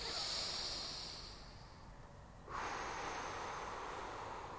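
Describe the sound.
A slow, deep inhale during a guided breathing exercise makes a soft, airy rush of breath with no talking. It thins out briefly partway through, then swells again and holds steady.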